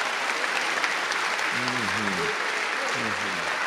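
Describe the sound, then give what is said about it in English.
Audience applause for a man honored for living a good life: thick, continuous clapping at steady volume, with a voice briefly speaking over it partway through. “Let's first of all give Eddie Call a hand for living a good life.”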